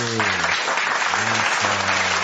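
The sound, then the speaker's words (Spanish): Audience applause at a live comedy show, continuous even clapping that stays loud throughout while people talk over it. “Pero los aplausos no es que lo estás buscando, lo que pasa es que el público estaba dormido y despertaste al público.”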